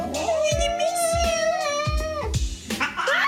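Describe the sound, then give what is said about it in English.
A pet cat meowing in a home video, reluctant as its owner leaves for a trip: one long, wavering, drawn-out yowl, then a shorter rising meow. “a couple years ago, my husband and I were ready to leave for a Disneyland trip, and I wanted to say goodbye to my cat, but she unfortunately did not want to say goodbye to me. Now I show them the video.”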